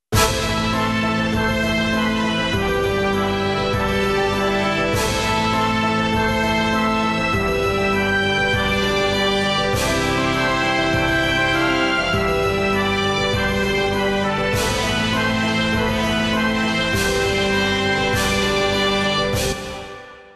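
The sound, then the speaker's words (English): Full orchestral climax with brass, trombones, tuba, harp, tambourine, cymbals, snare drum and bass drum playing together, loud and sustained throughout, punctuated by crashing cymbal strokes every few seconds before a brief fade at the end. “this second climax with all the brass and the trombones and the tuba is still playing and the cymbals and the snare drum and the bass drum and the tambourine and the harp and everything else. All together, it sounds like this.”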